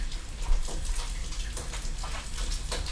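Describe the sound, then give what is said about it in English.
Hands being washed under a running tap make a faint, steady watery hiss, with small splashes and patters scattered through it. “I'm just gonna wash my hands.”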